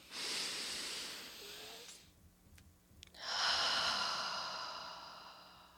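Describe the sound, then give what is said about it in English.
A deep breath, drawn in as a steady airy rush for about two seconds, then a short quiet pause and a long, loud exhale that slowly fades. No talking. “All right, deep breath in.”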